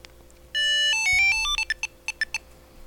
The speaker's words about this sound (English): Actually, that is the pairing sound. Yeah, that's the pairing sound.